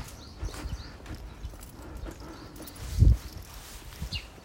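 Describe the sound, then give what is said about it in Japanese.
Footsteps of a person walking outside in winter clothes: a faint, steady run of many soft low thuds, with one heavier step near the middle standing out. “今歩いてます。”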